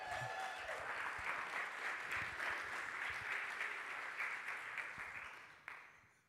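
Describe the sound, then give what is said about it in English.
An audience clapping its hands in steady, dense applause that holds evenly throughout at a fairly low level, then drops away abruptly just before the end. “I want everybody to get excited and clap your hands for Zane Adams”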